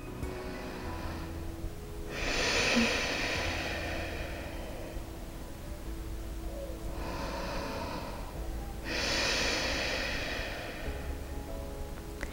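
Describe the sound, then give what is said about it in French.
Audible breathing during a guided relaxation exercise that stresses long exhalations. Three long, airy breaths rise out of quiet background, separated by short silent gaps. “N'ayez pas peur de faire du bruit quand vous respirez, ça fait aussi beaucoup de bien.”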